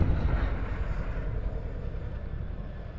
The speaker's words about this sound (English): Interesting dynamic sounds of the rotors and their airflows interfering with each other.